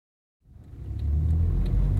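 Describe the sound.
A car engine sounds outside the police headquarters in Calais at 8 a.m., rising out of silence into a steady low rumble that grows louder and then holds even.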